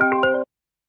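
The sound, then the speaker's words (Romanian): An electronic phone ring as a call comes in on a live call-in line: a brief steady tone with layered harmonic notes sounds for under half a second, then cuts off into silence. “Uite, și intră primul apel. Hai să vedem.”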